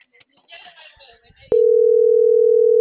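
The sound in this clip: A telephone call goes unanswered: brief speech gives way to a steady, loud, unbroken phone tone that holds to the end.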